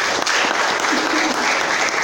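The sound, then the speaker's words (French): Audience applause, a loud, dense and steady wash of many hands clapping that fills the short clip with no talk over it. “On applaudit très fortement le Cameroun”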